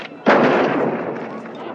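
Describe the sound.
A single loud gunshot from a pistol hits with a sharp crack, then a long, rough tail that slowly fades out.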